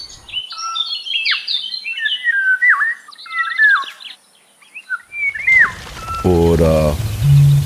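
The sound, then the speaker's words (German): Odd, varied bird calls are played, a rapid jumble of chirps, whistles and squawks for about five seconds. They stop abruptly and give way to a noisier passage with a low, buzzing, harmonic-rich tone. “Vielfalt der tatsächlich verrückten Vogelstimmen wie der hier oder der hier oder dieser hier”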